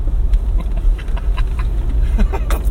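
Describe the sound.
A car being driven rumbles low and continuously, with scattered knocks and rattles from a rough ride and a sharper jolt near the end.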